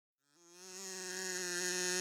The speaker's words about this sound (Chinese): 一只小蜜蜂在斑点龙的蛋糕店里飞来飞去。 斑点龙，快看快看，这里有一只小蜜蜂。